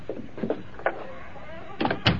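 A door is shut: a few soft bumps and knocks, then a loud cluster of sharp thuds near the end, with quiet stretches in between.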